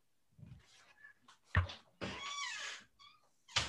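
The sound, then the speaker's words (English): A door opening to let a cat out: a sharp thunk, then a drawn-out tonal cry like a cat's meow, and another bump at the end, with light scuffs between. “I had to let my cat out.”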